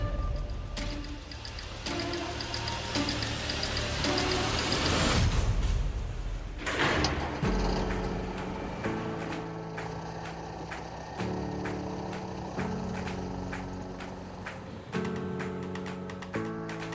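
The engine of an enclosed prison transport vehicle drones and climbs in pitch for several seconds, then a brief noisy burst gives way to steady mechanical tones that shift in steps.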